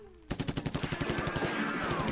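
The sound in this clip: Gunfire erupts in a gunfight where a shotgun is drawn: a sudden volley of many loud, sharp shots in a fast, steady rhythm. The shots merge into a dense, continuous roar toward the end, with no voices.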